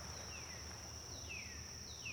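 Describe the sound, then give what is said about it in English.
Birds chirp in the distance at dawn, with three faint, thin descending whistles spaced across a steady background hiss and a constant high-pitched tone. “You begin to hear chirping birds in the distance,”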